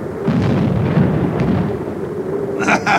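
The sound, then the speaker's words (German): Heavy booming rumble from a ship's starboard cannon battery firing a broadside, a sustained low roar that rolls on without pause, with a sharper, brighter burst near the end. “Steuerbordbatterie klar zum Feuern.”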